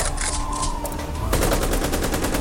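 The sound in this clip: Rapid gunfire aimed at someone climbing a ladder: dense, loud bursts of shots that build into a nearly continuous rattle in the second half.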